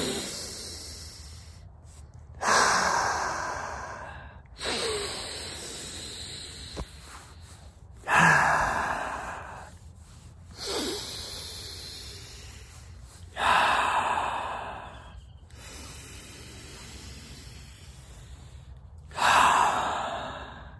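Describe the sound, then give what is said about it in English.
Forceful dragon breaths from a breathing exercise: six sharp, loud exhalations, each surging and then tapering off, separated by quiet pauses. “I want to start it with some breath work straight away. Let's just do a couple of dragon breaths right now.”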